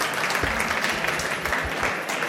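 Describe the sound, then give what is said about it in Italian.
Audience applause for a guest at an economics talk: dense, brisk clapping from many hands, continuous and fairly even in loudness, with no voices on top. “se fate un applauso anche a lui”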